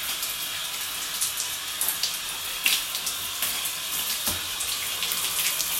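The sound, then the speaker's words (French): Shower water running while hair is wetted for shampooing, a steady bright hissing spray with scattered small splashes and drips on top, fairly quiet and even throughout. “C'est jours de shampoing. Je mouille également les cheveux.”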